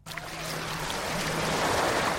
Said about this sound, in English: I'm paddling in the warm waters of one of Dubai's famous beaches.